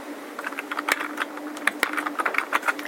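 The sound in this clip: Short text is typed on a computer keyboard into a property field: a quick, steady patter of many light keystrokes, unaccompanied by speech.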